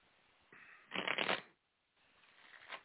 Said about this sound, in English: Okay, so let's pull some cards.